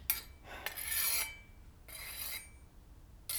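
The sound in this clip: A dulled blade being sharpened to cut tough meat: a few rasping, hissy scraping strokes, each about half a second long and separated by short pauses, heard alone without talk.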